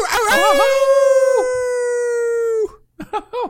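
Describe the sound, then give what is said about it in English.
A human voice imitates a howl. It starts with a wavering, yodel-like rise, then holds a long steady tone for about two seconds before cutting off, followed by a few short vocal bursts. “now that Workaholics has ripped off our HypersSloth Howl”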